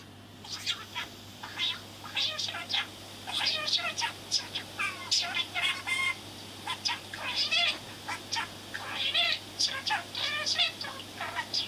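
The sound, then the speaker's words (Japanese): A pet parakeet calls in a long run of bright chirps, warbles and squeaky chatter, steady and fairly loud throughout with no clear pauses. “うちのあのインコ自慢します ほうほうほうほう 聞こえるか”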